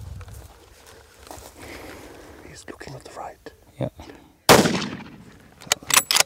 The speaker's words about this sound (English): And the third shot doesn't kill it.